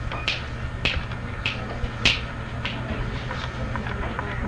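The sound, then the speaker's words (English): Fingers snap in a steady rhythmic series of sharp, crisp clicks, roughly evenly spaced and moderately loud over a faint background. “You shouldn't snap your fingers in a tune in a rhythmic way, you know.”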